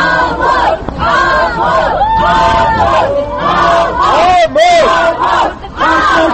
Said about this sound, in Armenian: Դատարանի բակում հավաքված ամբոխը բազմաթիվ պաստառներով կոչերանում դատապարտել Լևոն Ավակյանին և դիմավորեց մեղադրյալին բղավոցներով։